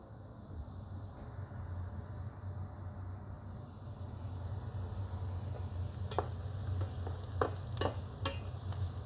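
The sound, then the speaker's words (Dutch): Sausages sizzle while browning in an oven, a steady crackling hiss over a low hum, with a few sharper pops toward the end. “De worstjes die staan in de oven, die draai ik dadelijk een keer om. Die zijn heerlijk aan het kleuren.”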